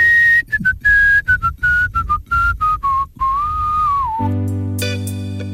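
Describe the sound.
Someone whistles a quick tune of many short, clear notes, then a longer held note that bends downward, before a different buzzy tonal sound with steady harmonics takes over at the end.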